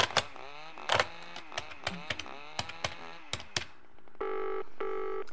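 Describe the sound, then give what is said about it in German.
Quick keypad tones of a telephone number being dialed, many short beeps in an uneven run, then two steady ringback tones as the caller waits for someone to pick up. “Nimm den Hörer ab.”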